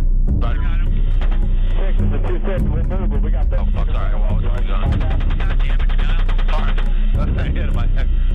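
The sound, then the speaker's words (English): Gunfire, with bullets fired at passersby among clay walls: a dense, loud barrage of rapid cracking shots over a heavy low rumble, continuing without pause. “The fire shots continue. Bullets are shot towards Saeed, Namir, and other passerby.”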